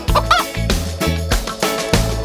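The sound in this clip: Chicken-like clucking in a children's song, a few clucking calls set over a steady, loud musical beat with a bouncing bass line.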